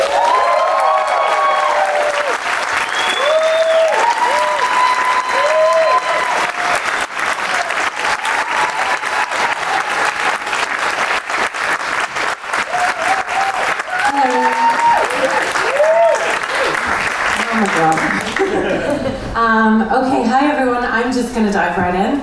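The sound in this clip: Loud, sustained applause from a conference audience welcoming a speaker, thick with whoops and cheers that rise over the clapping, fading toward the end as a voice begins to speak.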